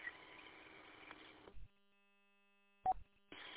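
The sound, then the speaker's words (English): Roger beep on a radio repeater: hissy radio audio cuts off abruptly into silence, then a single brief beep sounds before the transmission noise returns. “Yeah, can I just say I like the beep, Roger beep, on this repeater. It's endearing.”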